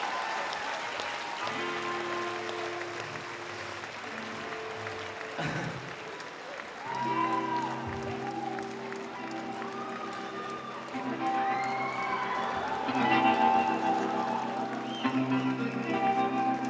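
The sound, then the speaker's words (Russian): A concert audience in St Petersburg applauds a performing act. Continuous clapping runs throughout, with steady tonal sounds underneath and a louder swell near the end. “Номер отличный получился. Спасибо вам большое. Похлопаем еще раз.”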